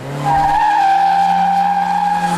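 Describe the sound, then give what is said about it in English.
Tires squeal as a car's wheels spin during a timed lap. A loud, steady, high-pitched screech holds over a low engine drone, with no voices. “Too much wheel spin.”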